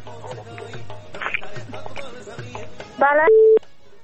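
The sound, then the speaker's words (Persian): Telephone line tones as a call-in caller is connected on air, following speech. A short burst of buzzing tones is followed by a steady, loud beep lasting a fraction of a second. “تماس بعدی را باید بگیریم.”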